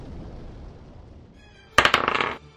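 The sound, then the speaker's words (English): Dice clatter as players roll initiative in a tabletop game: after a quiet lull, a quick rattling burst of sharp clicks that lasts about half a second and then stops. “Can everyone please roll initiative?”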